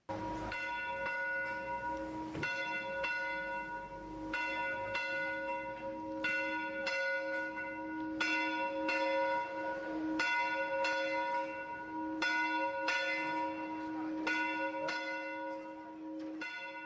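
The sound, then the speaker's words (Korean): A church bell rings at dawn with many steady, evenly spaced strikes. Each bright, resonant clang overlaps the lingering hum of the one before, and it is heard alone without talk. “교회의 새벽 종소리입니다.”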